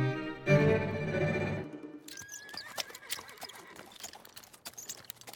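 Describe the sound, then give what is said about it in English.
A horse whinnies loudly, then hooves clatter in a quick, steady, uneven rhythm as a horse-drawn coach runs fast along a northern road. “remind me to hire a new coachman. Why, monsieur? This one hails from Port-au-Prince. He does not know how to ride our northern roads. Perhaps he's only going this fast because you were late this morning.”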